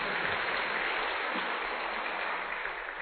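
An audience applauds to welcome a guest onto a stage, a dense, even wash of clapping that holds steady throughout without a break.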